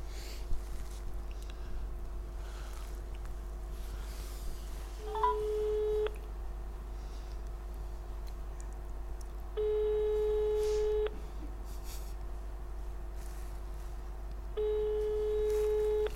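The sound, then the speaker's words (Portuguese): Telephone ringback tones as a call is placed: three long, steady-pitched tone bursts separated by pauses, over a constant low hum and no talking. “Vamos ligar ao Dr. Santana Lopes.”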